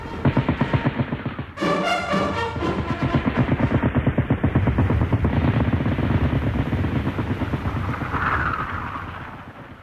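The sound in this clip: Machine-gun fire rattles through a First World War battle as a French attack collapses under German fire between the Meuse and Moselle. Rapid, evenly spaced bursts run continuously and loudly, with a brief high tonal whine cutting in early.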